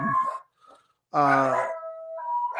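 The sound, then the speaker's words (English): Dogs howling in long, wavering, harmonic wails, loud and with no talk over them, after a few fainter, shorter calls. “I'm sorry about the dogs.”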